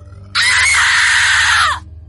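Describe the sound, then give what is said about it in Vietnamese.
A girl screams in a nightmare: one loud, sustained, high-pitched shriek lasting about a second and a half, then cut off, over a low steady hum. “Tôi gào thét dãy giụa”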